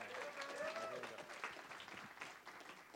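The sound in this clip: Faint applause from a church audience welcoming a speaker, a dense, steady patter of many hands clapping that holds evenly for about three seconds.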